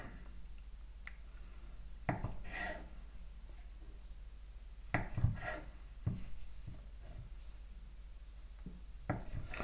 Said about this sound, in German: Dann längst und jetzt schneide ich noch ein paar Mal quer runter.